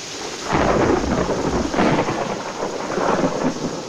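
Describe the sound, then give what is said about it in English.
A thunderstorm rolls on at night near a garage doorway, with deep thunder swelling in a few long rumbles over steady, hissing rain. “Lightning flashes in the doorway.”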